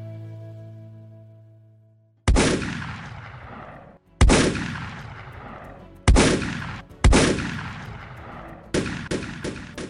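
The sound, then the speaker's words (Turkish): Pump-action shotgun blasts: four heavy booms about two seconds apart, then three quicker, lighter shots, each with a ringing decay. A low tonal note fades out before the first shot. “Böyle bir sesti. Pompalı tüfeğin hedefinde Bahar Dilek İnce vardı.”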